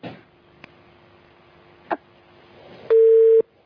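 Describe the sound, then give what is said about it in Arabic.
A telephone busy tone sounds after a caller's line drops. Faint clicks and a low steady hum come first, then one loud, steady mid-pitched beep near the end. “أنت انقطع الاتصال؟”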